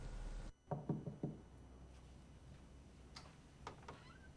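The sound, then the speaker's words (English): Knocking on a bedroom door: a few quick, quiet raps in one short burst, then near stillness broken only by a couple of faint clicks. “She knocks on the bedroom door and goes inside”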